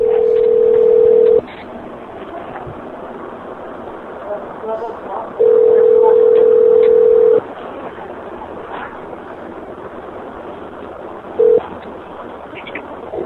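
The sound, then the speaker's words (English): A telephone ringback tone plays over a phone line as a steady mid-pitched tone in long bursts: two full rings and the brief start of a third. Stretches of hissy line noise separate the bursts. “Hold on for a second. Let me try to call your manager right now. Stay on the phone.”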